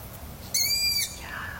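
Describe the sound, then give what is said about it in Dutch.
A long-eared owl calls from a bare branch at dusk near a lake: a single high, thin, tonal call lasting about half a second, standing out clearly over a quiet, low background hiss. “Een ransuil op een kale tak. Een wonderlijke ervaring, zo in de stilte van de naderende nacht. Hoort u maar.”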